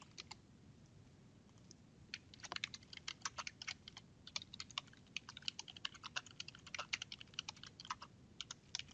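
Typing an e-mail on a computer keyboard: many quick, light key clicks in irregular bursts, fairly faint, with no voices.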